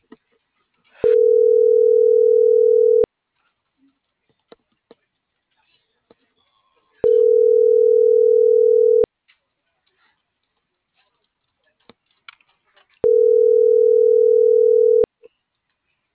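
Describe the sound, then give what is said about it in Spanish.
A telephone line tone sounds while a number is being dialed: three steady, even hums, each about two seconds long, separated by longer stretches of near silence with a few faint clicks. “Estoy marcando.”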